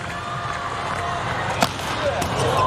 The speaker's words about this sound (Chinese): 穆亚诺维奇后排发球，